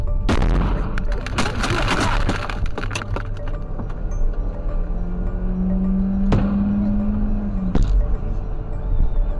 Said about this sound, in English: Weapons experts say that the two projectiles seen in these videos are likely mortar and appear from the left of the frame.